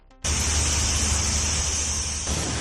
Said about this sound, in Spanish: Son los cañones de agua en la zona del Vedat.